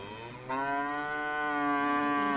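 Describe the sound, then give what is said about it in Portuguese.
A Japanese-breed bovine lets out one long, loud, sustained moo with a rich harmonic tone that swells early and holds steady to the end, with no voices. “Qual é o boi? Um boi japonês, uma raça japonesa que custa em média 1.000 pila o quilo.”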